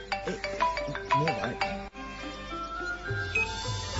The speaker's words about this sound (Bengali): এই মোবাইল আইছে মনে হয়, মোবাইল আইছে।